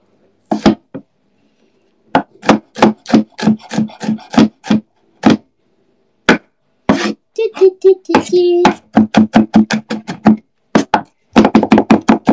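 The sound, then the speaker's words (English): Knife chopping and mincing garlic on a cutting board: many sharp, rapid taps in irregular bursts, with quick runs of strikes between short pauses. “Mincing garlic.”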